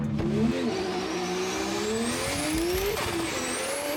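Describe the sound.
Drift car engine revving hard on the Jarama circuit race track, its pitch climbing steadily and dropping back as it shifts up through the gears, loud and continuous with no voices.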